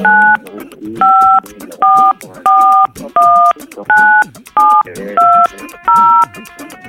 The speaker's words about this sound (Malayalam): Star 567 567 വീണ്ടും star. പിന്നെ നിങ്ങളുടെ മൊബൈൽ നമ്പർ പ്രസ് ചെയ്യൂ.